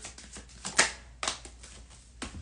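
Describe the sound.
Tarot cards are handled and one is drawn from the deck, making a quiet series of soft, crisp flicks and riffles with uneven spacing.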